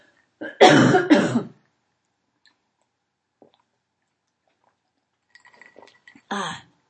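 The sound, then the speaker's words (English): Coughing and throat clearing from a tickling throat: a loud cluster of harsh coughs at the start, a long near-silent gap with faint small clicks, then one short rough throat-clearing cough at the end. “Hold on, my throat is tickling.”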